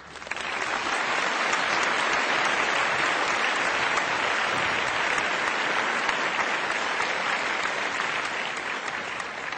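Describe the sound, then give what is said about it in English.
Audience applause welcoming a special guest to a question-and-answer session: dense, steady clapping that stays loud and even throughout, with no voices over it. “Please receive her with a round of applause.”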